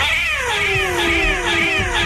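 A cat meowing in a long, drawn-out, wavering yowl that fills the whole clip, loud and alone with no voices.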